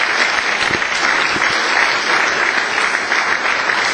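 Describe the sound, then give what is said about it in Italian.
Audience applause for the former mayor of Cerveteri: dense, steady clapping that stays loud and even for the whole stretch, with no voices standing out above it. “a cui chiederei di fare un applauso”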